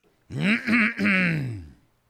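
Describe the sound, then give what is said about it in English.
A man clears his throat dramatically in one drawn-out, voiced 'ahem' made of a few linked pushes that ends with falling pitch. It is fairly loud and alone, with no other voices. “Sir Sycamore cleared his throat rather dramatically”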